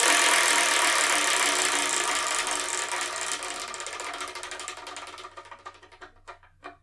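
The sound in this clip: A selection wheel spins with rapid ratcheting clicks that blur together at first, then slow steadily into widely spaced, distinct ticks as the wheel winds down.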